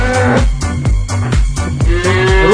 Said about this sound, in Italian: C'è la vacca! Sembra inferocito, ferocita. La vacca è inferocita. Vacca inferocita.